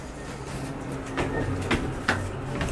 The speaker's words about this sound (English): Do you want to use the elevator or the stairs? Let's use the elevator.